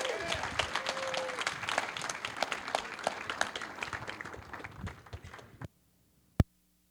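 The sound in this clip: A church audience applauds to welcome a guest speaker with steady, dense clapping for about five and a half seconds. The clapping stops abruptly, followed by a single sharp knock.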